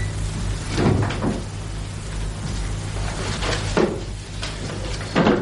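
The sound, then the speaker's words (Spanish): A wooden wardrobe door is opened: a few soft knocks and creaks of the door and its fittings, spaced apart over a steady background hiss. “Repite la misma acción con la puerta del armario contiguo”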